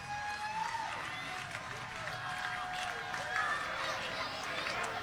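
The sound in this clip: Baseball crowd applauding the league's leading hitter as he comes to bat with the Indians down to their final out; dense, steady clapping and crowd noise continue throughout at a fairly even level.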